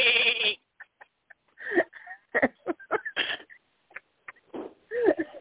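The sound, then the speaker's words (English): Goats bleating: a loud, wavering bleat opens, then comes a string of shorter, fainter calls with a few soft clicks between them. “I've got a couple of real goats staring at me. I'm trying to get them to say something”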